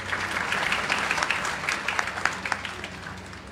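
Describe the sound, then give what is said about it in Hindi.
Applause at a degree and medal ceremony: many hands clapping in a dense, steady patter that holds an even loudness, with scattered sharper claps standing out. “तालियां बजती रहें।”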